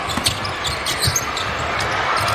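A basketball is dribbled during a game, giving a series of dull, low thumps at a fairly even pace over a constant wash of arena crowd noise.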